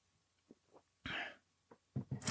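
Coughing and throat clearing from a tickle in the throat: faint, soft throat sounds lead into a longer harsh rasping burst, then a quick cluster of rough, breathy coughs at the end.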